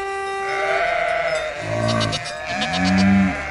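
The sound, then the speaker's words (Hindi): Goats bleating on a road where goats and cows move aside: two wavering, nasal bleats in quick succession over a steady tonal hum. “रास्ते की सब बकरियां और गायें दूर हट जाती हैं।”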